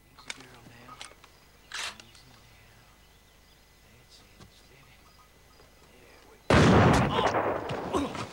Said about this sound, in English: takes aim, and fires.